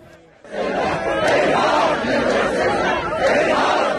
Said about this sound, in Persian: تشییع جنازه ای با حضور انبوه جمعیت